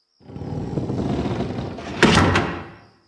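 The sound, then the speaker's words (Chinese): The door of a house to its hall is pushed shut: a long, rushing scrape of movement, then a firm thud with a few sharp clicks or knocks as it closes, before fading out. “帕克走过去，把刚才我们进来的那扇通往大厅的门关”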